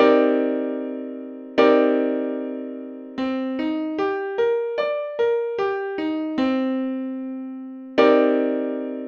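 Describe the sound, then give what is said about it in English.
A minor ninth chord on a bright, struck keyboard-like instrument sounds twice as a sustained block. Its notes are then picked out singly, climbing and descending, and a last full chord rings and fades. “To create a minor ninth chord, you take a minor seventh chord and you stick a ninth on top of that, and it sounds like this.”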